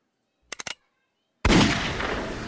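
A single loud gunshot bursts out and rings on into a long, slowly fading tail, preceded by three quick, faint taps.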